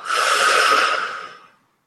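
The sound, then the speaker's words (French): A single audible breath during a guided breathing exercise: a soft, airy rush that holds steady for about a second and then fades out. “Encore, on inspire on expire.”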